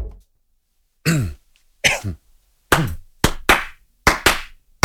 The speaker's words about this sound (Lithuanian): Nedaug, bet nuoširdžiai nuskambėjo aplodismentų.